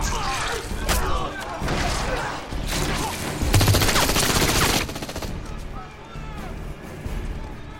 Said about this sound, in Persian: چه خبره؟ بیاین، اشاره کنید صدای تیراندازی بود.